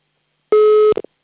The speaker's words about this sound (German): So, hier ist wieder eine Nummer, die wähle ich jetzt und dann hoffe ich, dass bitte jemand abhebt. Oh, Freizeichen haben wir zumindest schon mal.